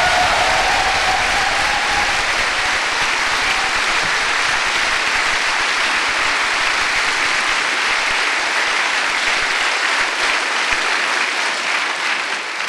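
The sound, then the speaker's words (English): An audience at Greenbelt applauds with loud, sustained clapping, a dense and unbroken crowd roar of hands that keeps an even level for its full length and thins only slightly toward the end. “So before I say anything, I'd like us all to put our hands together and congratulate those who make this possible.”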